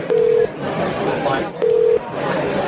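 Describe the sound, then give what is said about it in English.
Telephone ringback tone from a prank call, two steady, mid-pitched beeps of about a third of a second each, separated by a pause, heard under ongoing voices and background chatter. “Right, hang on. It's ringing. Right, it's ringing.”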